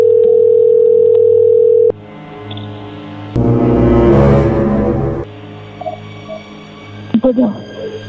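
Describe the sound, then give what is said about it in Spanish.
A steady telephone line tone plays for about two seconds while a call is being dialed, then cuts off. Other noises and brief voices follow. “A ver, se está marcando de nuevo.”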